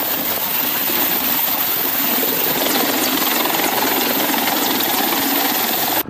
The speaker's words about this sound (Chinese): 借助武装直升机掩护，运输直升机采取低空隐蔽机动的方式到达机降点上空。